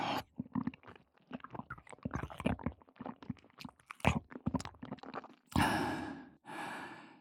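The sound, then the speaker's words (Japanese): Wet tongue and mouth sounds: many quick, soft clicks and smacks in an uneven flurry, followed by two long, breathy exhales near the end. “舌の音と動き忘れないようにちゃんと感じて。”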